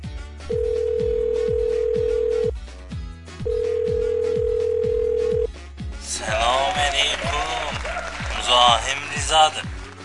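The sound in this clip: A phone rings on the caller's end: two long, steady low tones with a pause between them, over a rhythmic ticking beat. A noisy burst of voices follows.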